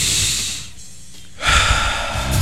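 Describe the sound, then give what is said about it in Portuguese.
Deep breathing during a breathing exercise: a long, airy, rushing breath, then a brief quieter pause, then another strong, noisy breath that carries on to the end. “Todo dia aquele exercício, respirar fundo, espreguiçar, vamos juntos então, ó.”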